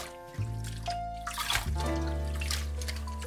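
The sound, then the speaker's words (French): Water sloshes and trickles as lettuce is washed. A few soft splashes and dribbles sit over a steady low hum, with no talk. “Donc cette salade, on la lave bien.”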